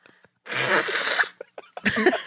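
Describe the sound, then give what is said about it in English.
Nose blowing during an allergy attack: one long, forceful, noisy blow, then a few shorter snorting bursts after a brief pause. “are you blowing your nose again? I am. I'm having an allergy attack.”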